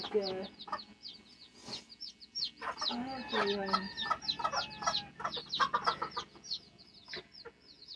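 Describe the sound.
Many faint baby chicks cheeping in a steady flurry of short, high-pitched peeps that overlap and continue throughout.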